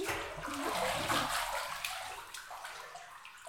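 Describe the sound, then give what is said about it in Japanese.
A towel is lifted through hot bath water, producing a continuous soft sloshing and splashing with light watery gurgles, fairly quiet and steady throughout. “タオルをお湯に浮かべて、まん丸の手を作って下から持ち上げるっす。”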